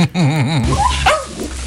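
A dog named Bailey gives a loud, wavering whine-like vocalization, followed by a few shorter, rising cries, with no other sound.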